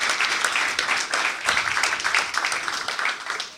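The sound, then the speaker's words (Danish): Applause from an audience welcoming two guests on stage, a loud, unbroken wash of many hands clapping that stays steady across the whole stretch. “Så bed velkommen, eller giv, giv dem begge to en rigtig stor hånd”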